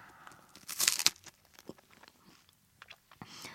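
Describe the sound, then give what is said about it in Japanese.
Biting into a matcha ice cream waffle cone: one loud crisp crunch, then a few softer crunches and chewing sounds that fade. “この金のアイスのワッフルコーンの美味しそうな音もぜひ皆さんに聞いていただきたいんですけど、いただきます。”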